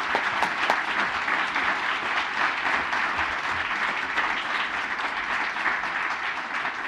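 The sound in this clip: Audience applause welcomes a speaker to the stage at a library talk: loud, continuous clapping holds at an even level for the whole stretch without fading.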